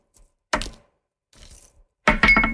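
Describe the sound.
Three colored dice are thrown in a board game, clattering and tumbling across a surface in a few short, sharp bursts separated by quiet gaps. The last burst is the loudest and most rattling.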